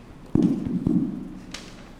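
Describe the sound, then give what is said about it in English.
Knocking on a door, a few dull, hollow raps with a low resonant ring, then a fainter, brighter tap. “Just then there was a knock on the door.”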